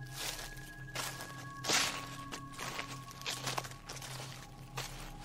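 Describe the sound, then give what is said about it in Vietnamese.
Footsteps outside: a few irregular, soft scuffing steps spread over several seconds above a steady low electrical hum, with no voices. “Sau đó, tiếng bước chân ở bên ngoài vang lên.”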